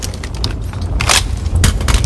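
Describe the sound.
Sniper rifle shots fired from a high window at German soldiers in a World War II town square battle, two sharp, loud cracks standing out among smaller pops over a rumbling, noisy background.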